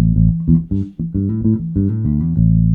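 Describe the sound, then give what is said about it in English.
A bass guitar is played with both pickups selected instead of the bridge pickup alone. It plays a quick line of several deep, punchy notes, loud and alone. “I'm swapping over to both pickups here from my usual bridge pickup sound. So now it sounds like this.”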